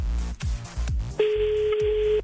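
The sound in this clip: A steady ringback tone sounds on an outgoing phone call, one unbroken mid-pitched tone lasting about a second, following a few short, louder bursts of sound.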